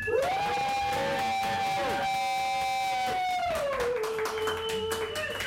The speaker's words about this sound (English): That was absurdly loud. There's hundreds of people here. It's a big deal.